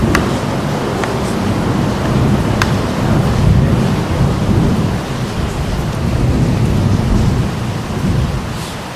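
Heavy afternoon rain pours in a dense, loud, steady roar, with deep rumbling thunder rolling beneath it. The downpour stays constant across the whole stretch with no voices.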